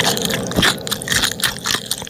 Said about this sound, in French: mange les ailes de poulet et ne laisse que le squelette